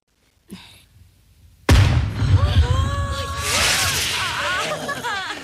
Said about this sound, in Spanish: Un castillo de fuegos artificiales aparece tras los ventanales y todos corren a verlo.